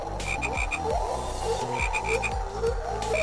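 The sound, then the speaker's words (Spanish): A crowd of frogs croaks constantly in a dense chorus of overlapping low, rattling croaks, punctuated by repeated bursts of short, higher chirps. “la multitud de ranas le gritaba y le hacía señas para que dejara de sufrir”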